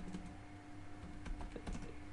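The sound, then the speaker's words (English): Faint typing on a computer keyboard: irregular bursts of quick, light key clicks with no talk over them. “I'm busy typing, and I shouldn't be.”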